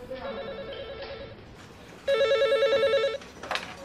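A telephone rings in two bursts of warbling electronic tone. The second burst is louder than the first, and a short click follows near the end.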